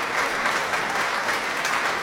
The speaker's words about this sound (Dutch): volgens mij nemen de muzici het applaus in ontvangst met een buiging.